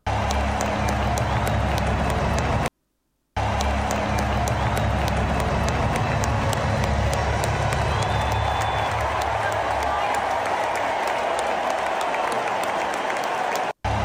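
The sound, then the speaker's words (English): A Super Bowl stadium crowd cheers and applauds in a long, roaring swell, with voices talking over it. The sound cuts out briefly near the start, then resumes and carries on steadily. “I don't know for sure if they're showing Trump on the Jumbotron. But they are cheering right then.”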